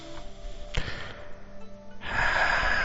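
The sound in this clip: A deep breath is drawn in during a muscle-tensing relaxation exercise, heard as a steady rushing inhale that builds in the final second after a soft thump earlier on.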